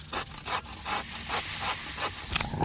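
Snakes pouring out of statues hiss, forming a dense, high hiss over rhythmic rasping pulses. It stays steady and fairly loud, swelling slightly midway.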